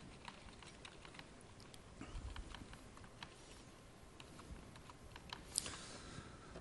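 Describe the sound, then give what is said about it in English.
Computer keyboard keys clatter as a password is typed to log in to a Microsoft identity account, with many quick, irregular, faint clicks at an uneven pace throughout. “Oh, I typed in the wrong password.”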